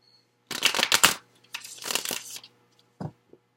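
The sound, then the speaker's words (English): Tarot cards from the After Tarot deck are shuffled and one is drawn: two bursts of papery riffling and sliding, then a couple of soft, short taps near the end. “And I get one more card from the After Tarot as one final bit of guidance for you.”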